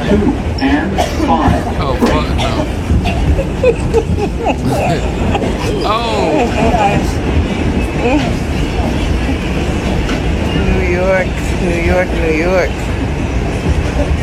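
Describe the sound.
A New York subway train at the 149th Street–Grand Concourse station rumbles and clatters steadily, with metallic squeals and people talking throughout.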